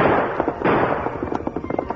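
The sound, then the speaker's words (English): Gunshots fired at a masked rider on horseback by moonlight: sharp, loud cracks burst out over a dense, rumbling backdrop, followed by many quick pops. “Panic struck him, and he turned again to fire at the masked figure.”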